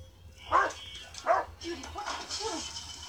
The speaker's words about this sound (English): Oh, I'm sorry. It's just our dog. She got out. She won't stay put.